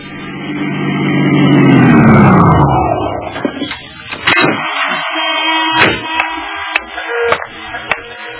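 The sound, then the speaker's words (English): A vehicle passes in road traffic of passenger cars and trucks heading to a river tunnel; a loud engine drone falls in pitch over the first few seconds, then gives way to scattered clicks and knocks. “There was a fair amount of passenger car and truck traffic leading to the river tunnel”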